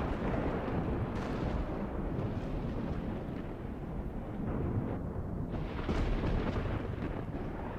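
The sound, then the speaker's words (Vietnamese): A lightning strike hits a freshly mounded grave, followed by continuous, heavy, rolling thunder that stays loud and rumbling throughout, with no voices. “Một tia sét chói lòa dọi thẳng từ trong tầng mây ấy xuống cái ngôi mộ mới đắp của Hải”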